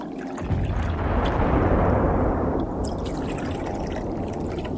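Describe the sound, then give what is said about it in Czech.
Tea being poured into a cup: a continuous splashing liquid stream starts abruptly and runs for about four seconds, loudest early and easing slightly toward the end, with no talk. “Když dovolíte, naliju vám čaj.”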